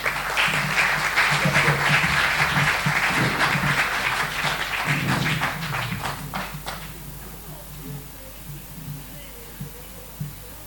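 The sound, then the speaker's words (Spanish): Audience applause for a conference speaker: loud, steady clapping lasts about seven seconds and then dies away to near quiet, with a voice speaking over the clapping. “Pido un aplauso para nuestro conferencista y consocio Jorge Bernardi.”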